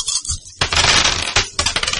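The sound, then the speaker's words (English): Dice are rolled for a perception and subterfuge check in a tabletop game, giving a quick, bright rattling clatter in a few tumbling bursts. “You just roll the dice, I won't know the difficulty until I roll these.”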